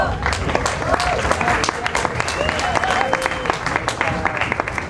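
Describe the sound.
Audience applause: dense, brisk clapping runs steadily throughout while a voice talks over it.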